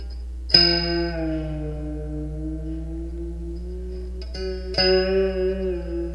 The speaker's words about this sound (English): here's what the Danbao sounds like.